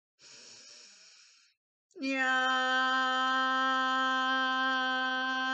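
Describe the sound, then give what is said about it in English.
A deep breath in during a guided breathing exercise, a soft, steady airy inhale lasting about a second, followed after a short pause by a long, sustained sung vocal tone. “So we'll breathe in and use the tone Yam, which is for the heart space. So deep breath in.”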